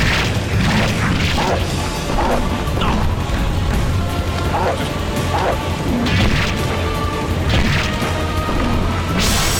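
Crashing, thwacking hits as an enemy smacks the player's character in the Dreamcast action game Sword of the Berserk: Guts' Rage, repeated impacts buried in a loud, dense, continuous wash of game noise.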